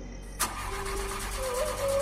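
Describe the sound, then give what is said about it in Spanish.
A truck engine cranking as the driver turns the key and struggles to start it: a brief sharp burst, then a steady low mechanical drone that runs to the end, with no voices. “El motor no quería encender y yo intentaba todo para lograrlo.”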